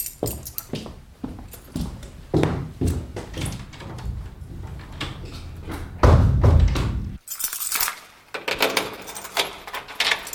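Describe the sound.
Keys jangle in many quick, bright metallic clinks and rattles. The sound carries on at an uneven pace, with a denser, louder burst of jingling toward the end.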